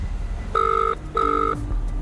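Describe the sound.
A telephone ringing tone sounds as two steady, even electronic buzzes with a short gap between them, heard over a low background hum.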